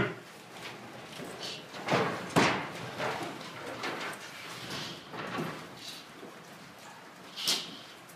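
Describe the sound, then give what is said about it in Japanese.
A window sliding shut, heard as a few soft scraping rumbles and muffled knocks spread over several seconds, faint and without talk. “窓を少し窓を閉めてください。”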